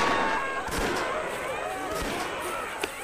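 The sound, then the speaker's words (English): Gunfire as men shoot at ape men leaping down from jungle trees: a few sharp shots crack out over a dense, steady backdrop of noise. “Lord John ran behind us, shooting at the ape men who were jumping down at us from the trees.”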